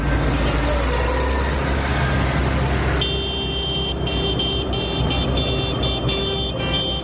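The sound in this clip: Traffic noise during a farmers' protest march in Madrid: a continuous, loud engine drone and rumble, with sustained vehicle horns joining partway through and blaring steadily to the end.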